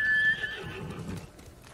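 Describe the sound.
A horse in a video game lets out a short, high neigh, then a few soft, low hoof clops follow, fairly quiet and with no talk.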